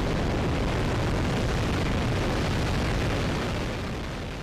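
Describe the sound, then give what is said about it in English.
Rocket liftoff sound effect, a loud, dense, continuous roar that rumbles steadily and eases off slightly at the end. “So let's go ahead and get back into our rocket then and blast off into space. 3, 2, 1, 0, and liftoff.”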